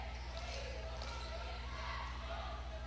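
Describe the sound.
A basketball is dribbled on the court during a girls' high school basketball game against Hallsville, a regular series of low thuds under a constant hum and commentary.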